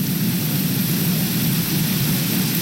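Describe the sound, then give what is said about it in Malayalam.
Rain with thunder: a loud, unbroken rain-like hiss with a constant low rumble underneath, steady throughout with no separate clap or break. “ഒരു മഴ സന്ധ്യ അങ്ങനത്തെ ഒരു മോഡലാണ് കേട്ടോ. നല്ല ഇടിമുഴക്കവും”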